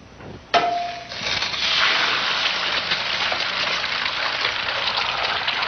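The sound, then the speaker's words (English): An egg frying in a skillet: a sharp impact as it hits the pan, then a loud, steady sizzle that swells and holds to the end. “Or the one with simply an egg and skillet. This is your brain. This is drugs.”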